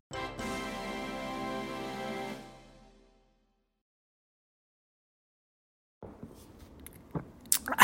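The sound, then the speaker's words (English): Drinking an egg cream made with chocolate syrup: after a sustained musical chord fades out and a pause, a short noisy burst of slurping and gulping follows, with a few sharp wet clicks at the end. “Wow, this egg cream is delicious.”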